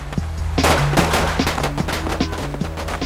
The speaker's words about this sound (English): Pirates emerge from the jungle to fire on Steve's people, who take cover and shoot back.